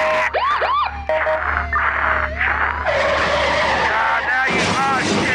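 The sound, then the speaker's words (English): Car tires screeching through repeated skids, curving high-pitched squeals over a loud, continuous roar of engine and road noise with no pause. “That's right, I'm jamming into your car! I'm fucking crashing into you!”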